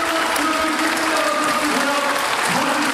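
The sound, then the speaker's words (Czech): Audience applause in a hall as an actor is announced as personality of the year at an award event: dense, continuous clapping at a loud, steady level throughout. “Velký potlesk, velké gratulace.”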